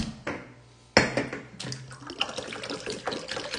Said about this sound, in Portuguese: Se eu encher esse copo aqui, ó.